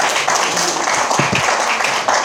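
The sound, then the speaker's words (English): Applause from an audience at a speaking event: dense, steady clapping forms a continuous crackling wash that holds at an even loudness throughout. “One more round of applause for her.”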